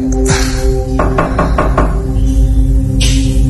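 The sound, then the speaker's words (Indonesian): Knuckles rap on a toilet stall door in a quick, evenly spaced series of firm knocks, set against a steady low hum with a couple of duller thumps before and after. “Dan saat ku ketuk, pintu bilik toilet itu terdorong dan terbuka perlahan.”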